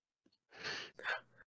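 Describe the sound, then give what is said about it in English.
A cartoon character, SpongeBob, takes a deep breath before a job test at the Krusty Krab. A quiet, breathy inhale is followed by a longer sighing exhale, with no talk. “Deep breath.”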